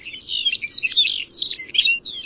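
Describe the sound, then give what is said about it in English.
Lapland longspur song given in flight over the Arctic tundra: a continuous, high, tinkling warble of quick chirps and trills that runs the whole clip without a break, with no voices. “The longspur often takes flight to sing, casting its gentle song into the air as it glides above the Arctic tundra.”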